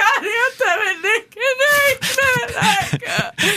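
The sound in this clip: A voice imitates happy crying, sobbing with joy, in wavering, whimpering wails whose pitch wobbles up and down, broken by breathy catches, then shifting into choppier, gasping sob-like bursts.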